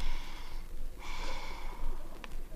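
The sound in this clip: Breathy inhalation of laughing gas by a patient lying down, heard as a soft, steady hiss of drawn-in air that swells and fades a few times, with a brief sharp sniff near the end and no talk.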